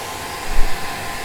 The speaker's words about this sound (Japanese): じゃあ髪の毛乾かすね。